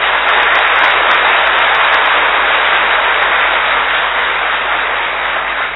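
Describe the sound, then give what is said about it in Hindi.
A gathered audience claps loudly in welcome, a thick, even wash of hands that stays at a constant level throughout with no voices breaking through. “जोर से ताली बजाओ।”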